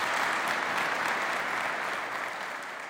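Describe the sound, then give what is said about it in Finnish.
Audience applause follows a speech thanking Denmark at the opening of a new Ukrainian arms factory. Dense, even clapping from many hands is sustained at a steady level, then gradually thins and fades toward the end. “Bondarchuk kiitti ja yleisö vastasi aplodein.”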